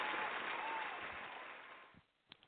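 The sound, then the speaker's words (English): Applause from an audience on a late-night call-in show, a dense, steady burst of clapping that gradually thins and fades out after about two seconds, leaving near silence with a couple of faint taps. “Let's get a little more applause than that. Come on, we can do better.”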